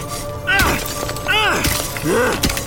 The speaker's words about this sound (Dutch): greep een pikhouweel van de grond en hakte als een bezetene in de ijsmuur. De brokken vlogen in de grond.